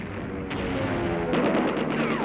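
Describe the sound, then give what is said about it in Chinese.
Gunfire shot into the air by soldiers on a swaying pontoon bridge over a river in battle: a few sharp reports cutting through a dense, steady roar. “让水性不好的同志立即对空射击”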